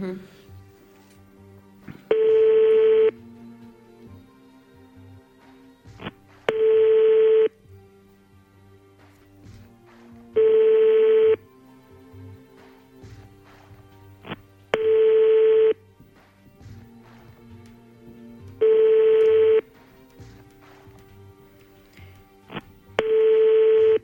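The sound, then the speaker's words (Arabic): Telephone ringing tone on a business owner's line: six evenly spaced steady ring bursts, roughly one every four seconds, each about a second long, over a quieter continuous background. “الهاتف ديال سي يونس اللي هو مسؤول بهذه المقاوله”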